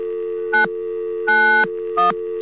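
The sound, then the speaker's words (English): A landline telephone failing to dial out: three bursts of touch-tone beeps, the middle one longest, play over a steady dial tone that never cuts off. “Okay, the phone company's been sabotaging us apparently, and we can't seem to dial out anymore.”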